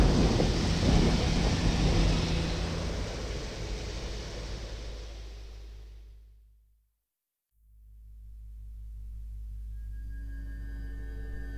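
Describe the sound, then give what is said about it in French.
A thunderstorm with heavy rain and deep rumbling thunder that fades out to near silence midway, then swells back in as rain hiss and a low rumble. “Il y eut des éclairs, des voix, des tonnerres, un tremblement de terre et une forte grêle.”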